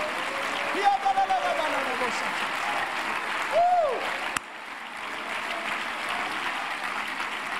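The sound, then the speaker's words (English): A church audience claps their hands in praise, a dense, steady wash of clapping that runs throughout, with a couple of brief vocal cries rising above it. “Give the Lord a hand clap or praise.”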